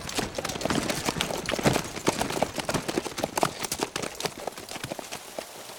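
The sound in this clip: Horses' hooves clip-clop as a posse of riders sets off, a rapid, steady stream of many overlapping hoofbeats at moderate loudness.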